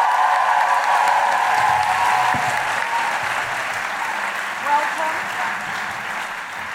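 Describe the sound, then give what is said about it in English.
Steady applause from a live audience in Melbourne, with cheering voices and whoops mixed into the clapping. Loud and dense throughout, easing slightly toward the end. “Put your hands together and make incredible Melbourne Guilty Feminist woo-hooing noises for the wonderful Eugenia Flynn!”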